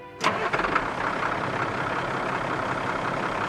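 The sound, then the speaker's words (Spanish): A parked grain truck's engine catches with a short burst and then settles into a steady, even idle beside a grain bin during a very cold corn harvest, its broad rumble continuing without any voices. “En el granero contiguo, un transportista de grano estaba estacionado con su motor encendido.”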